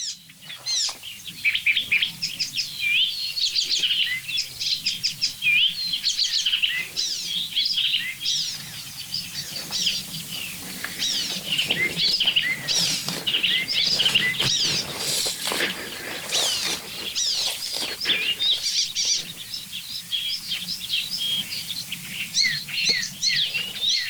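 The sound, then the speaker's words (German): An icterine warbler sings a song made mostly of imitations of other birds: a fast, continuous stream of varied high chirps, whistles and twitters that carries on without pause, with no voices. “Der Gesang des Gelbspötters besteht fast ausschließlich aus Imitation.”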